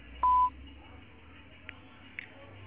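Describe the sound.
A voicemail beep tone that sounds before a message is recorded: a single loud, steady, high-pitched beep lasting about a third of a second, followed by low background hiss and a couple of faint clicks.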